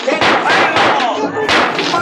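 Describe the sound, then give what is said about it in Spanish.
Repeated gunshots from police guns firing at a fleeing man in a street, a rapid, uneven volley of loud, sharp bangs that continues through the whole clip. “Las armas de la policía funcionan repetidas veces tratando de acertar en Calimán”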